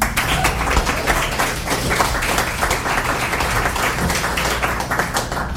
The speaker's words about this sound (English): Let's give Joseph another hand